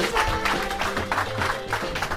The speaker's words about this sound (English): I want applause, people.